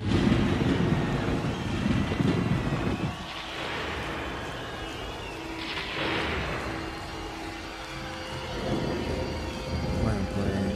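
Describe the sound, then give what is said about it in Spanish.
Deep rolling thunder rumbles loud and sustained for about eleven seconds, swelling in a few broad waves. “te propongo que escuchemos unos truenos y comencemos.”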